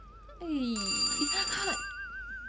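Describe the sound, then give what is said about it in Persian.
A telephone ringing late at night: a warbling electronic ring that runs the whole time, partly covered in the middle by louder, busier sounds from a film playing. “آخه این وقت زنگ زدنه. میخوای فیلمو نگه دارم؟ مطمئن با شماره را اشتباه گرفتن.”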